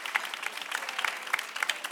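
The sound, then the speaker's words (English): Audience applause for three women being honoured at a presentation, many sharp individual claps blending into a lively, uneven patter at moderate volume. “I want you to give these women their applause, all three of them.”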